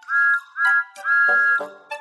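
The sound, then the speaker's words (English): A steam engine whistle, from a small blue tank engine, gives three bright, high-pitched toots separated by short gaps, the third one longest, followed by a brief final blip. “Thomas the Tank Engine, a cheeky little blue steam engine. He is the number one engine on Sir Topham Hatt's railway and has a whistle that sounds like this.”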